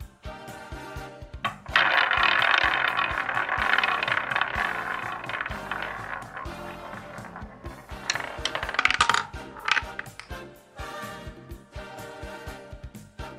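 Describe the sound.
A prize wheel spins for a movie roulette game, giving off rapid ticking clicks with a bright, jangling swell in the middle, the clicks spacing out and growing sparser toward the end.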